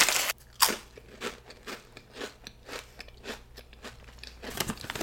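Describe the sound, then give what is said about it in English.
Chick-fil-A sauce flavoured potato chips are bitten and chewed with many crisp, rhythmic crunches, loud and close, with no talking. “Let's try Chick-fil-A sauce chips.”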